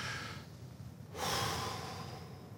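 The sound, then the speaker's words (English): An audience takes a deep breath together and then exhales, a soft, faint rush of air that swells partway through and slowly trails off. “Let's take a big deep breath and exhale. One, two, three.”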